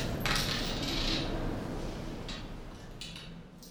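Metal utensils clink and scrape against a pot as someone stirs a maceration at a convent kitchen stove, a few scattered light taps over steady low background noise.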